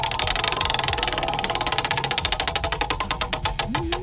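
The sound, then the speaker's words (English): A game show prize wheel spins, its rapid ticking clicks gradually slowing and spreading apart as the wheel winds down, over a low steady hum. “You ready to spin the wheel of games”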